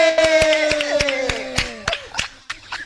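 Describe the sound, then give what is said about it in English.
Rhythmic clapping for a comedian as he is brought on stage: many sharp, evenly spaced claps under a sustained tone that slides slowly downward in pitch, thinning out toward the end. “So ladies and gentlemen, manene na manenegazi, amapucho na mapanzula, put your hands together for the multiple award nominee, Smokey.”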